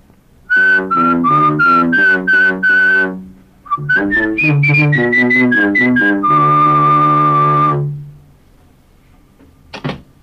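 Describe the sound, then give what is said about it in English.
Whistled tune played into 1985 Covox Voice Master voice recognition software for the Commodore 64 and Apple II: two quick phrases of short bright notes, ending on a long held note, then a brief click. “The software also has a built-in whistle mode as well as a humming mode. Thus, I can whistle to make music as well.”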